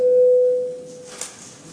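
A steady electronic sine tone signalling parliamentary voting mode holds one fixed mid pitch, loud and alone for under a second, then fades into a faint lingering hum.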